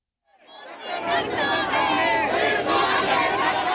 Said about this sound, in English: opposition parties and activist groups are protesting across the country. They're demanding the resignation of the head of the country's Elections Commission.